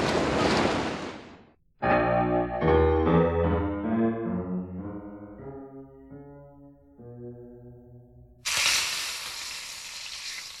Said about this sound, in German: Willst du den Butt wirklich braten?